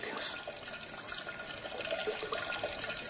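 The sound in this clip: A steady stream of urine splashes outside a toilet bowl onto the walls and floor, a faint continuous hissing, spattering liquid sound with no pauses.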